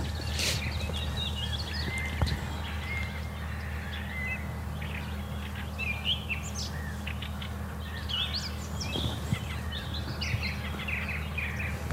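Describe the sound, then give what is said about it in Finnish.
Birds chirp and sing at sunrise on a spring morning. Many short, high calls are scattered throughout over a steady low hum, with no talking. “nyt tässä hetkessä kun se aurinko nousee, niin aika moni lintukin on jotenkin hereillä”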